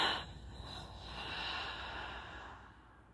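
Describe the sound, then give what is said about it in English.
A group breathes together in a meditation, one slow collective inhale and exhale as soft, airy breath noise, faint and continuous, with no talking. “we'll close out this meditation with the collective inhale and exhale.”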